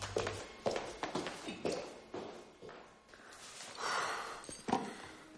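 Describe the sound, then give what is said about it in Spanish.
Footsteps of a man turning and walking away in a period adventure film scene: a few irregular, soft steps and taps, faint, over low background noise. “Arrogante da media vuelta y se marcha.”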